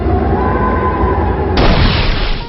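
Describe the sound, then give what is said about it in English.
Video game battle attack effect for a wind force move: a loud, dense rushing burst of noise that turns brighter and harsher partway through, then holds briefly before cutting off. “Foe Skiriel used Wind Force.”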